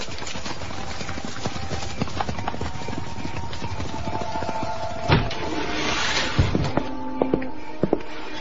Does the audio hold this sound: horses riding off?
yes